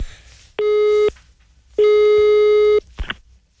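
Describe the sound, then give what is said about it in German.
A telephone busy signal sounds as two steady, level beeping tones, the second about twice as long as the first, alone with no voices. “Es klingelt einfach nicht. Also jetzt, ja, ich mache mir wirklich Sorgen.”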